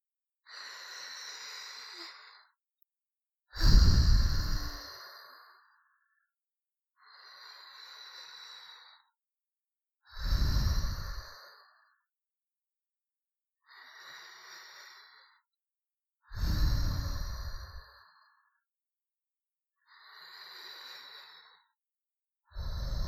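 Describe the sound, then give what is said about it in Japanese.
Slow, deep breathing during a relaxation exercise: long, soft inhales alternate with heavier, fuller exhales, about four unhurried breath cycles separated by silence. “さあ、私に合わせて深呼吸してみてください。”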